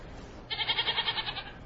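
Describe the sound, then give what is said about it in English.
A goat gives a single wavering bleat lasting about a second, with a fast, trembling pulse, rising sharply out of a quiet background. “Seems we've run into another glitch. Yeah, the goat again.”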